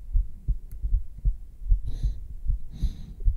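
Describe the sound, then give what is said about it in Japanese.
Heartbeat picked up through the bare skin of the chest with a binaural microphone: dull, muffled low thumps repeating in a steady, regular rhythm, with no talk. “心音も聞いてみたいな。どのぐらいドキドキしてるんだろうね。”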